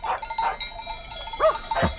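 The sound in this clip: A herd of livestock arrives at a village in the early morning, its cowbells clanking. Metallic clinks repeat irregularly at a moderate level over soft background movement.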